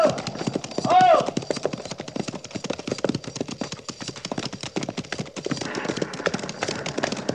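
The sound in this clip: Hoofbeats of cavalry horses ridden off by a patrol near Fort Laramie, a steady stream of many rapid, overlapping clip-clop strikes that continue evenly throughout.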